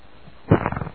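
A fart sound effect: a quiet lead-in, then a short, loud sputtering burst of low, fluttering pulses that starts halfway through and trails off.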